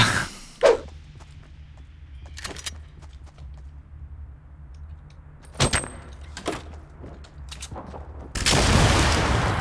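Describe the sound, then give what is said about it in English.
Rockets firing in a video game gunfight: scattered sharp blasts and shots over a low hum, building to a sustained, loud roaring burst at the end. “Oh god, those are rockets!”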